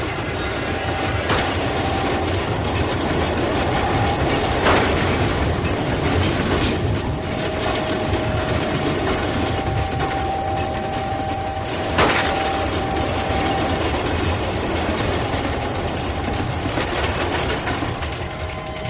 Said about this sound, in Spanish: Una vez que termina de pasar el tren